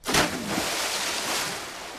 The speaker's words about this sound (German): Platsch! Erneut ein Eimer voll mit Wasser Eo und diesmal sogar Mausern traf.